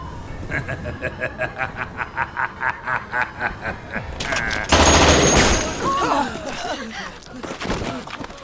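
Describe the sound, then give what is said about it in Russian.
Automatic rifle fire in a film soundtrack: a long, steady run of rapid, evenly spaced shots, then a sudden louder, harsher burst of noise that fades into a rougher clatter. “Он открыл огонь из автомата.”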